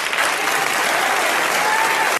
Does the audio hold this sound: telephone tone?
no